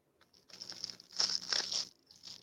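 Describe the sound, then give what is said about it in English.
Crinkly plastic wrapping of an MRE ration pouch being handled and torn open, heard as a few faint bursts of crackling rustle with brief pauses between them. “What is that? Open it up, goddammit. Yeah. We try to see what the fuck going on. The MRE.”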